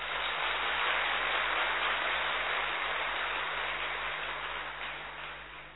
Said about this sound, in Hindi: आप वो जरा हाथ उठाएं, वाह, अपने लिए ताली बजाओ।